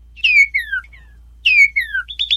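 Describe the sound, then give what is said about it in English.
A northern cardinal sings loud, clear whistled phrases that slur downward, two long descending notes each followed by shorter ones, then a quick series of rising chips at the end. “The bright red northern cardinal sounds like this.”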